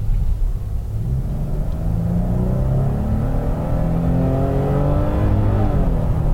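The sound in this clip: A car drives on a main street with a steady, low engine rumble. The tone climbs slightly as it seems to accelerate toward the end, and there are no voices.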